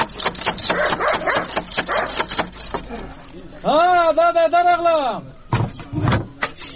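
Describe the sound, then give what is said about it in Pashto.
Knocking on a wooden front door comes as a rapid series of many sharp raps, mixed with voices. A drawn-out, wavering vocal call follows, then a few more thuds. “ته ودرېږه چې دا دروازه بیا ور وټکوم”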